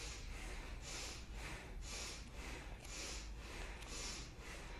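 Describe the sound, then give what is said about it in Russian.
Rapid bhastrika breathing driven from the belly during a bindu kriya meditation. Each forceful breath is a sharp hissing rush, repeating many times in an even, steady rhythm at a low level. “И начинаем дышать этой точкой, бхастрику, животом.”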